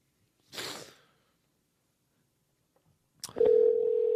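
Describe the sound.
A telephone dial tone sounds while calling a caller back: after a brief rushing burst of noise and a stretch of silence, a click gives way to a steady, unbroken mid-pitched tone that holds to the end.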